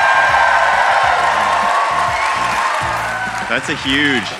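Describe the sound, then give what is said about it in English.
Large live audience at the Fox Theatre in Atlanta cheering, a loud, sustained roar of applause with whoops and shouts, easing slightly before a voice rises over the crowd near the end. “We are joined by a huge crowd.”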